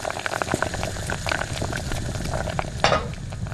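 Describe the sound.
Steady bubbling sizzle of cabbage curry cooking on a stove, left forgotten until it begins to burn. Many small crackles and pops run throughout, with one sharper burst near the end.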